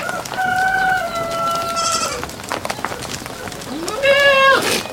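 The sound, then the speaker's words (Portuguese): A rooster crows loudly twice in a Portuguese village soundscape. The first crow is long and drawn out, and the second, shorter one comes after a stretch of quieter rustling farmyard sounds. “Este é o som de uma aldeia portuguesa, tal qual. Som de uma aldeia captado por via dos microfones de um projeto que se desenvolve em Nodar”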